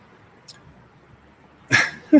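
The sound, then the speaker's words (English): A dog yips and whimpers in two short, sharp bursts near the end, standing out clearly against an otherwise quiet background. “Yeah, man, the dog totally agrees.”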